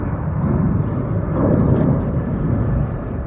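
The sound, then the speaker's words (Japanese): An airplane flying overhead near Fukuoka Airport, a deep, steady roaring rumble that swells slightly midway and then eases off, with no talk. “飛行機か 福岡空港近いですよね。”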